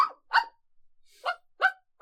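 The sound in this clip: A dog barks loudly in a few sharp, separate bursts, each bark short and harsh with brief silences between them, and no other sounds around them.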